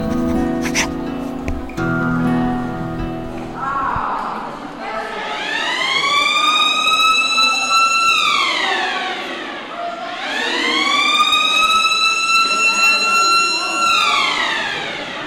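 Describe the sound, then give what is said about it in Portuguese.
A prison wake-up siren sounds before breakfast in a women's wing. Two long, loud electronic wails each climb in pitch, hold, then slide down, following some brief mixed sounds at the start. “Antes do pequeno almoço, tem uma sirene, um som, que é para acordarem.”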